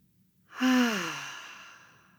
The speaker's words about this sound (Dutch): En adem 3 keer door je hart in en uit.